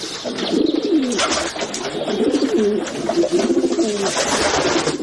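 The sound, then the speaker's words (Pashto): Green pigeons coo inside a ruined, looted workshop building with broken walls. Their low, rolling calls repeat in a steady series of phrases throughout, with no voices. “ودانۍ کندوالې سوي او اوس شنو کوترو پکې ځالې جوړې کړې دي.”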